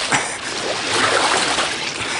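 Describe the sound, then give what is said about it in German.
Water splashes and churns as people break the surface from underwater, a steady, hissing rush of spray and sloshing with no clear pauses. “Sofort schießt der Befreite an die Wasseroberfläche. Auch Claudia kann auftauchen.”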